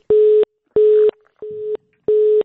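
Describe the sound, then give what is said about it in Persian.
Telephone line tone after a call drops during a Persian call-in conversation: four steady, evenly spaced beeps at one fixed pitch, the third slightly quieter. “بله خب تماس ما با اونا قطع شد.”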